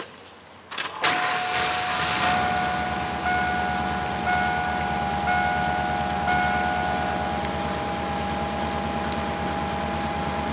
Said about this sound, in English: This is the sound of a slightly modified vehicle getting ready for startup and run.